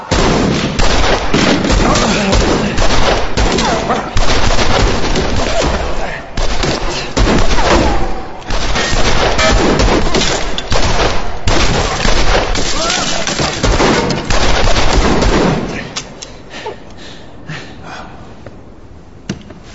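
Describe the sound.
Sustained gunfire, a dense fusillade of rapid, cracking shots that runs loud and almost continuous for about fifteen seconds with voices mixed in, then drops to a much quieter tail.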